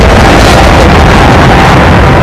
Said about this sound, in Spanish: Este es el momento en el que el avión de Trump aterriza en Ankara.